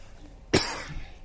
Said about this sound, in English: I'm very sorry to be coughing.